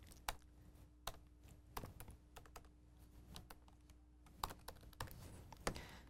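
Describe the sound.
Quiet typing on a computer keyboard, many light, irregular key clicks with scattered louder taps and short pauses between bursts of keystrokes.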